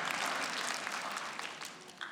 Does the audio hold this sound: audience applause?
yes